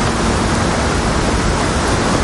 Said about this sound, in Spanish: Abajo, las aguas rugen levantando espuma blanca contra las rocas del fondo.